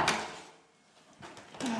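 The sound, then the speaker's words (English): The top door of a small house swings shut on its own with a bang. A few brief thuds and knocks stand out against a quiet, hissy background, and the final hit is the loudest. “just basically come through the top door of my little house. And it shuts on its own. There you go. Heard the bang.”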